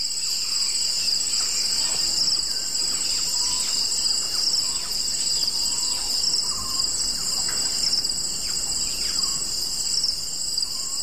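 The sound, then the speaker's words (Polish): Cicadas and other wild animals recorded in remote Ethiopian wilderness: a loud, steady, high-pitched insect drone runs unbroken through the whole recording, with a few faint chirping calls scattered beneath it. “Cykady i przeróżne, przeróżne zwierzęta nagrane gdzieś w Etiopii, gdzieś daleko w głuszy.”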